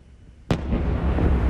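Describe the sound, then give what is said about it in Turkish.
A heavy blast from a night-time ballistic missile attack on Kyiv lands with a sudden sharp crack, followed by a loud, sustained low rumble and roar that carries on to the end, with no voices. “Sirenler çaldı, patlamalar peş peşe geldi.”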